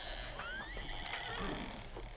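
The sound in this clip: Mustang horses near a corral give a thin, high neigh that climbs in pitch, one whinny over a steady low background rumble, with no talk.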